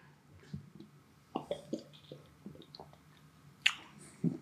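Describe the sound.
Someone tastes a chilled drink straight from the bottle, with a few soft wet sips, swallows and mouth clicks spread over several seconds and a sharper click near the end.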